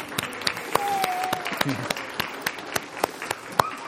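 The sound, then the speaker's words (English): An audience gives scattered applause after a child's baptism in church, with loose individual claps spread unevenly through the stretch and a few voices calling out among them. “Let's just say a little round of applause for”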